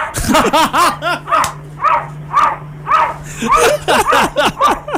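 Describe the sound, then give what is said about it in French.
A cat coughing in many loud, harsh, yelping bursts that sound almost like barks, coming in a quick, uneven rhythm with short pauses, over a low steady hum. “C'est le chat qui jappe. C'est le chat qui jappe. En fait, il tousse”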